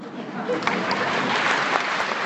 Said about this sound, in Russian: Я так понимаю, вы себе хлопаете.